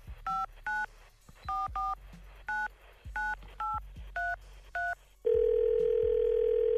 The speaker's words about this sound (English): We had a young lady call earlier and said she wanted to forgive her sister because her sister slept with her boyfriend. Can we call this young lady real quick?